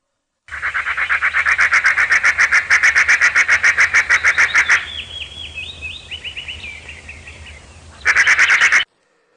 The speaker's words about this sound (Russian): Сороки.